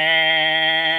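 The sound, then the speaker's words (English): A person imitates a horn with their voice: one sustained, nasal, buzzy tone held at a steady pitch for about a second, loud and alone. “That's the sound of the horn, I guess.”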